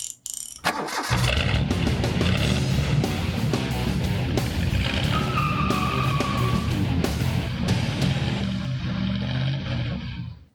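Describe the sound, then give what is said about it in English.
V8 car engine turning over and catching with a sharp burst, then roaring loud and steady with a deep rumble and revving for about ten seconds before cutting off abruptly. “I can't remember what exactly vehicle that's from, but... sounds like a good old some kind of car. V8. Yeah, it's not a tractor.”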